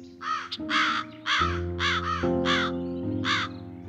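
Crows caw in a run of about six or seven hoarse, harmonic calls, loud and irregularly spaced, over a steady low tonal hum, around a cornfield guarded by scarecrows.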